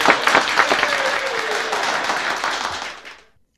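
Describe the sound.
Studio audience applause breaks out in a dense burst of clapping that holds steady for about three seconds, then quickly fades away.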